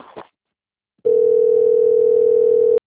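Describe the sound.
Telephone dial tone before a call: one loud, steady, unwavering hum that sounds alone after a brief short noise and a pause, then cuts off abruptly.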